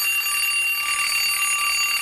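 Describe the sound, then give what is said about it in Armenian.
Alarm clock ringing in one continuous, unbroken burst of bright, high-pitched metallic tones, steady and loud throughout with no other sounds. “Այս սեպտեմբերից Երևանաբնակ դպրոցականների ընտանիքներում զարթուցիչը կզնգա սովորականից ավելի շուտ։”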